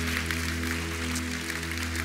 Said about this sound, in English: can you give a huge hand? Don't do it half hearted, like, you know, like a pastor welcome. Do a reverend welcome. Let's give him a big welcome, Reverend.